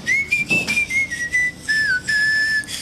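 A melody whistled by one person, clear high tones that step up and down between several phrases with brief breaks between them. The whistling is steady and fairly loud, with no talking.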